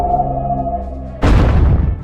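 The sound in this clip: Shadow Sphere attack effect used by foe Shatina in a turn-based video game battle: a low, buzzing harmonic drone gives way abruptly to a loud, rushing burst that swells and then decays toward the end.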